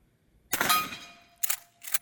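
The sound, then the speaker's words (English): Shots fired at a target during firearms instruction: three sharp reports on their own, the first with a longer ringing decay, followed after a pause by two quicker cracks. “All right, so now you're going to weapon off safe when you're ready. Sights aligned. Smooth trigger to the rear. There you go. First one on target.”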